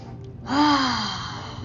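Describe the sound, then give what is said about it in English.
A single deep breath with a slightly voiced, sighing edge. It swells quickly to its loudest point, then eases off slowly over about a second. “Let's take a deep breath and sit up straight.”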